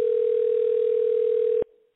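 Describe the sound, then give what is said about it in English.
A telephone dial tone before a number is dialed: one steady, mid-pitched hum held at a constant level for about a second and a half, then cut off abruptly and followed by a brief fading trace. “So here we go. Dialing.”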